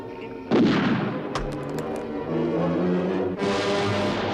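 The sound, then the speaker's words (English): A gas grenade is fired into a control room inside a fortress. A sharp blast opens the sound, followed by a dense rushing hiss punctuated by a few quick cracks, and the noise swells again near the end. “he just fired what I guess was a gas grenade into the control room where the lieutenant was sitting.”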